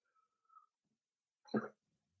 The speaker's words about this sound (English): there was one of those nasty coughs coming again.